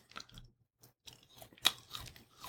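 Someone chews a bite of beef steak: faint, irregular wet chewing with soft crunching clicks, alone without talk.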